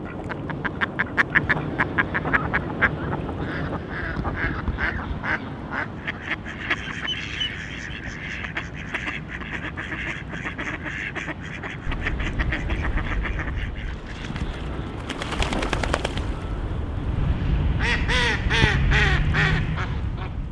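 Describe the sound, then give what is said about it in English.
Mallard ducks, a relatively large duck species, quack repeatedly in loud, rapid runs of harsh calls that continue throughout with only short pauses. “If you guessed the mallard, you're right. This relatively large duck is found throughout North America and also breeds in Asia, Australia, and Europe.”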